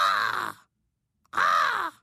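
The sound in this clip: Crow cawing: two long, harsh, loud caws separated by a short silent pause.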